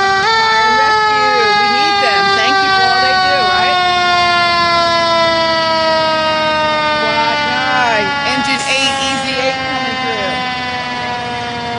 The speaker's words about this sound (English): Slow and steady. Probably the slowest they have to ride all day. They'll be on the way to incidents to help people. Go ahead, Rockdale County. Engine 9.